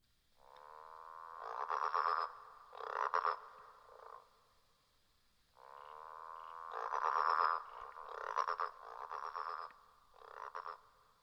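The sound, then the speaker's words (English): Green and gold frog calling in two bouts of deep, rasping, growled croaks. Each bout is a drawn-out moan followed by a few shorter pulsed notes, with quiet pauses between. “Green and Gold Frog.”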